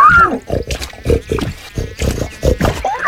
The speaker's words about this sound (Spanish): Más tarde pasó por ahí don Gervasio rebotando de las aguas puercas, el cerdo más importante del lugar,